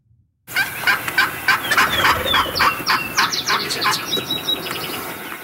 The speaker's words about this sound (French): C'est un dindon sauvage.